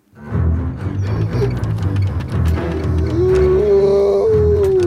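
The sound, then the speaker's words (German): A wolf howls through the night, a long, loud, drawn-out note that rises and then holds steady over a low rumbling background. “Heulten Wölfe durch die Nacht.”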